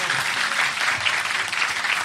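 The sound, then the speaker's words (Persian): Crowd clapping hands along with a song at a religious celebration: dense, continuous applause from many people at a steady, fairly loud level. “بزن کف تو دیگه، بگی بالا دست تو یا علی.”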